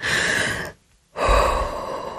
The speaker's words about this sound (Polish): Głęboki oddech.